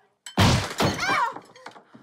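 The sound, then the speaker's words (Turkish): A large stone smashes through a door with a loud, heavy crash: two big impacts close together, then a brief scatter of rattling debris that fades out. “Koca bir taş kapıyı kırıp içeri Gülçin'in yanına düştü.”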